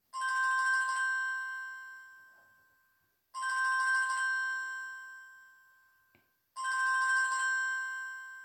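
A telephone rings with three evenly spaced bursts of a bright electronic ringtone. Each burst lasts about a second, leaves a fading tone behind it and is followed by silence.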